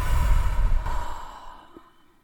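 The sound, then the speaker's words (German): A single deep, audible breath during a guided mindfulness breathing exercise, a soft airy sigh that is fullest at the start and fades steadily into silence over about two seconds. “mal ein paar tiefere Atemzüge. Atme durch die Nase ein und durch den Mund aus.”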